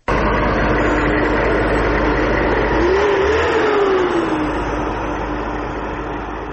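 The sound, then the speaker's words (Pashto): A tank engine on the highway between Lashkar Gah and Kandahar roars loud and steady, with a brief whining tone that rises and falls in the middle before the rumble eases slightly toward the end. “په دې اړه نور تفصیل په دې رپورت کې چې د ټانګ په غږ پیلېږي.”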